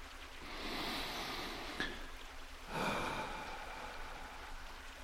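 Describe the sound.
Deep, slow cleansing breaths in and out during a guided relaxation exercise: two long, soft, airy swells of breath, faint and unhurried, with no talking.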